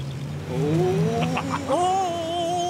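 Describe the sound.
Car engine at full throttle, its whine climbing steadily in pitch and then stepping higher partway through as it keeps accelerating, over a low, rough rumble.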